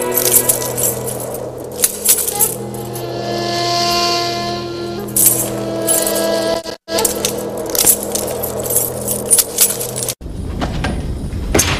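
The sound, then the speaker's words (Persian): Metal chains clink and jangle as they are fastened onto a prisoner's feet, giving irregular metallic rattles over a steady droning background. “طوق و زینتالات او را گرفته و زنجیر به پایش بزنید.”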